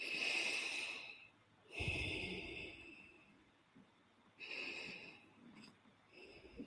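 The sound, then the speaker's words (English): Deep breathing during a guided relaxation exercise: a few slow, faint inhales and exhales, airy and hissing, with no talking. “just take a couple of deep breaths.”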